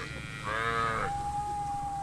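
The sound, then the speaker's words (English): A cow in a herd of cattle gives one loud, drawn-out moo lasting about half a second, over a low background rumble. “you go past a herd of cattle”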